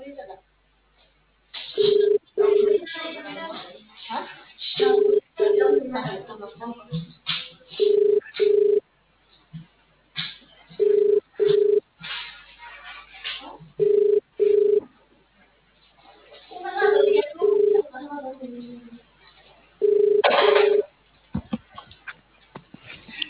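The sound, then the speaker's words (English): Ringing tone of a phone call placed from one mobile phone to another: short paired electronic beeps repeat at a regular pace, about every three seconds, while people talk over and between them. “Then I phone from her phone to my mom.”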